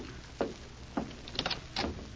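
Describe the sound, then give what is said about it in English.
A door is opened, giving a few separate soft clicks and knocks from the latch and handle over a faint background hiss. “I'll open the door for him.”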